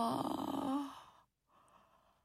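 A girl yawns very slowly, a drawn-out voiced moan that sinks at the end, then a soft, breathy exhale after a short pause.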